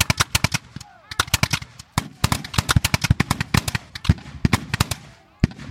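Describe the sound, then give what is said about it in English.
Rifle volleys crack out in a battle as soldiers fire at enemy lines of Mexican troops: many sharp, rapid shots in irregular bursts, loud and overlapping with brief gaps between clusters. “He and his comrades fire volley after volley at the Mexican lines.”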